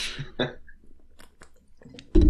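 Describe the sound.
Someone chews food in quiet, wet mouth sounds, with a few soft smacks and clicks spread across the moment and a sudden louder burst right at the end.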